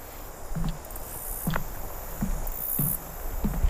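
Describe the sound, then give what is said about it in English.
Insects buzz and chirp near a bog or swamp by a footbridge, making a steady high drone with louder shrill bursts. Regular low thuds recur about every three quarters of a second underneath. “The bugs have gotten noticeably louder.”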